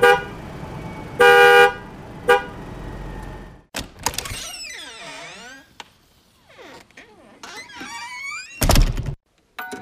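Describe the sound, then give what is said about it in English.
A car horn gives a short, loud honk early on among a string of everyday sound effects, including squeaky door-like creaks and other clattering noises, with no talking. “A horn honking?”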